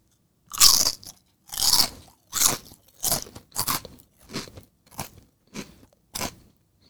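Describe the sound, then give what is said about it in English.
Crisp crunching of an unidentified chip being bitten and chewed: many sharp crunches in a steady series, the first few loudest and the later ones softer, with no talk. “ASMR time. I don't even know what this chip is.”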